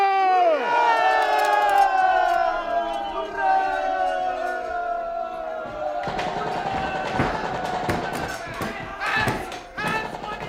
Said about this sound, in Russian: Красноармейцы выскочили из казармы за майором. Сквозь дым и кирпичную пыль Валя видела какие-то фигуры, которые бежали, стреляли, падали.